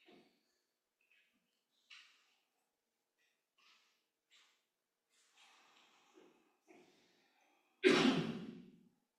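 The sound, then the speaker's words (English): Slow breathing in and out, with soft, faint breaths spaced apart, then one loud, long exhale like a sigh near the end. “you can breathe in, count your breath in, and breathe out”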